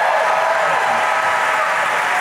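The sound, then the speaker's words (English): Audience applause after performers are introduced: a steady, dense wash of many hands clapping that holds at an even level from start to finish, without distinct individual claps. “all right, ladies and gentlemen, big round of applause for Michael Meadows and Tommy Smurl of Court of Point of Fame.”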